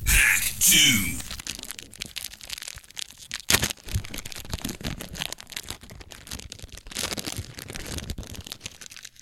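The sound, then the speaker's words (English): Crinkling and tearing of a foil pack of 1998 Paramount Happy Days Omnichrome collector's cards, a crackly rip near the start followed by scattered sharp crunches and rustles of foil. “Should we open up some Happy Days cards? All right, here we go. So this too is in a foil pack because this is a 90s collector's card set.”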